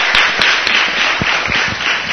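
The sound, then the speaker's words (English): An audience at a festival event applauds the actors with dense, steady clapping that stays loud throughout. “So I welcome everybody. Can we get a big hand for those actors?”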